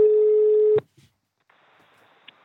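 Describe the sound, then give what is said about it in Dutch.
A live telephone call being placed gives one steady, mid-pitched ringback tone lasting under a second, cut off by a click and then near silence. “we gaan nu bellen. live bellen met Ellie”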